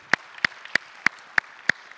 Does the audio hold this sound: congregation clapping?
yes